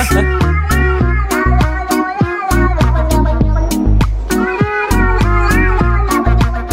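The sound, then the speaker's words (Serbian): Music built from remixed cat meows: loud, rhythmic pitched notes repeat in a steady pattern over a deep pulsing bass, with meow-like tones woven through the beat. “Glavna atrakcija, bar meni, ali i mnogima koji su bili na tom koncertu, je bio onaj lik iz Južne Afrike koji e, remiksuje mačke”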